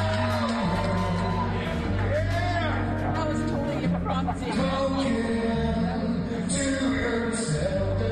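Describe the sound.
A live duet of a rock ballad performed with two guitars on stage. Male singing rides over strummed guitars, with constant audience noise beneath the steady, loud performance.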